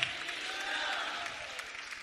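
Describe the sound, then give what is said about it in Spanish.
Soft audience applause during a church service, offered in praise to God: a faint, continuous wash of clapping from a crowd, steady throughout. “Aleluya, démosle un aplauso al Dios de gloria.”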